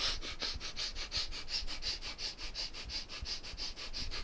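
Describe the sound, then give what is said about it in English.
Rapid rhythmic breath-of-fire breathing, a long run of sharp, even nasal puffs at about three per second, steady in loudness from start to finish. “Now let's do the breath of fire.”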